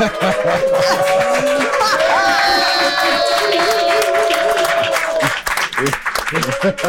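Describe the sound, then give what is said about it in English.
A crowd cheers and applauds loudly for the men's side after a men-versus-women contest at a gathering. Whoops and shouting voices ride over sustained clapping, and the noise eases off near the end. “If the men won today, I want you to make some noise.”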